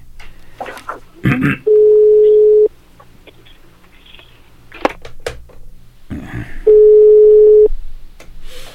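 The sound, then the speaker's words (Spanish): A telephone ringback tone plays twice while a call connects. Each steady, mid-pitched tone lasts about a second, with a long pause of faint clicks and line noise between them. “esperando que suene por acá, que enlace la llamada”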